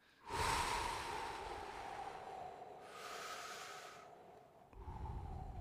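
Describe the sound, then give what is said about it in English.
Several faint, long deep breaths are drawn and released in an airy, hissing rhythm. A brief pause separates the last breath from the others, and no one speaks over them. “Everybody has to take a real deep breath.”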